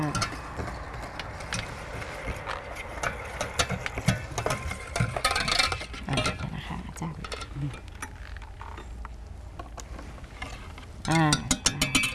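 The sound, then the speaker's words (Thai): An electric bakery mixer beats dough, switched on at its lowest speed, with a steady mechanical whirring and faint ticking running beneath a woman talking. “เวลาเราตีนะใช้เครื่องก็คือลงไปก่อนนะคะแล้วเราก็ค่อยๆเปิดนะคะเปิดเบอร์หนึ่งก่อนก็ได้ค่ะ”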